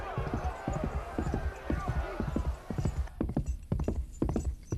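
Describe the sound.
Horse hooves clattering in a fast, continuous run of many heavy thuds, loud and steady throughout.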